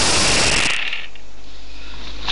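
A loud clattering rattle as eight dice are rolled all at once, a dense burst lasting under a second that then trails off into a long, quieter wash of noise.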